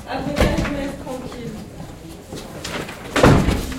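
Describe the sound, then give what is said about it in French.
A door is pushed open, marked by a couple of dull thuds, one near the start and a stronger one near the end, over a low murmur of voices. “Aujourd'hui, 3e épisode, on pousse une porte.”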